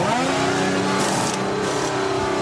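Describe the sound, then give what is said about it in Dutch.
A Red Bull racing car, its tyres worn, drives into the pit lane with a loud, sustained high-pitched engine whine and rich harmonics that continue throughout. “En uiteindelijk rijdt hij dan de pitstraat in.”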